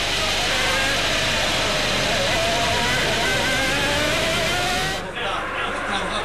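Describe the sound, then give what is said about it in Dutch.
Formula One race cars accelerate out of a corner at the 1996 Monaco Grand Prix on a soaking-wet track, making a continuous loud, high-pitched engine howl with a rising whine that thins abruptly near the end. “Uit accelereren van de bocht.”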